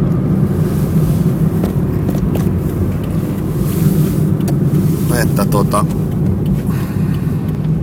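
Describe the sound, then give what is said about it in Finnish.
A Toyota Yaris with a 1.3 engine growls as the car drives, a steady, continuous low rumble that holds throughout while a voice talks over it. “käännytäs taas tonne Järbyyn päin, niin oho, tuolta tulikin auto, kyllä sedän Jaris pannaan 1.3 muriseen, niin kyllä me päästään alta pois.”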